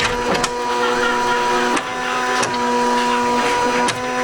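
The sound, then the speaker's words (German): A printer runs a job with a steady mechanical whine and hum, broken by regular clunks and brief pauses roughly every second and a half. “Drucken.”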